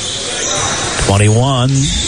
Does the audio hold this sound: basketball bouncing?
yes